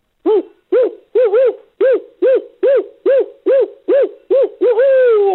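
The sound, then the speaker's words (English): A human voice imitates a barred owl's strange caterwauling call. Many short, evenly spaced arched hoots run in a steady rhythm and end in a longer, louder falling wail. “it's also known as the monkey owl because it's got this very strange caterwauling type call. It kind of goes like,”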